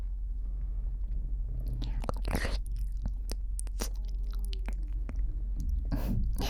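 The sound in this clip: Chewing and crunching as someone eats a homemade liquor-filled chocolate sweet. Several crisp, irregular bite-and-crunch bursts sound over a faint, steady low hum, with no talking.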